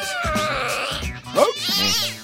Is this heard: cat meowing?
yes